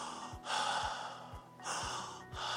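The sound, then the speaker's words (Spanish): A person imitates calm, normal breathing with slow, soft breaths, two longer airy breath sounds with quiet gaps between them, fairly faint and even. “Ustedes saben que una persona que respira normal, respira pues,”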